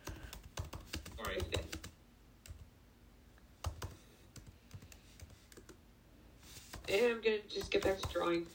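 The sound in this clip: Computer keyboard typing while a message to a group chat is written: uneven runs of quick, light clicks, with talking rising near the end.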